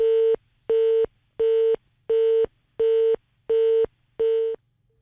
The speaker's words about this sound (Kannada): ಕರೆ ಕಡಿತಗೊಂಡಿದೆ.